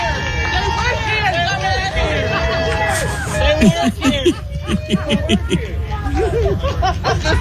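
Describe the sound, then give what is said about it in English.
Crowd noise rises as a gate opens to free prisoners: a steady hubbub of many overlapping voices, with chatter and bits of laughter throughout. “Listen to him cheer at first. Yay, we freed some prisoners. It's opening. Like it's the gate to Mordor.”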